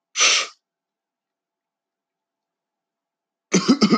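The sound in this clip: A person coughing after taking a hit of cannabis: a brief breathy exhale, then a stretch of silence, and finally a short, harsh burst of several rapid coughs.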